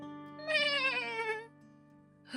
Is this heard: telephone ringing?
no